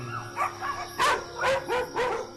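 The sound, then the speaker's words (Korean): Dogs barking at night: a quick run of sharp, loud barks mixed with higher yips, coming in uneven bursts with short gaps and no voices. “밤이 되면 목청을 높이는 아이들. 이렇게 짖어도 뭐라 할 사람도 없고요.”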